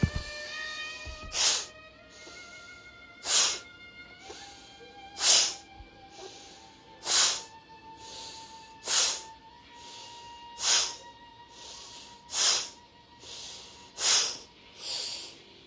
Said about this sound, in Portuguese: Então vamos fazer oito, inspira lento e solta rápido.